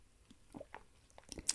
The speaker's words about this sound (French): je pense que je fatigue, je vais boire un petit coup d'eau